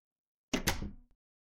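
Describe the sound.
A door opens as someone knocks and walks into a room. There are two quick loud impacts that run into a short rattling sweep, then a soft click as it settles. Silence comes before and after.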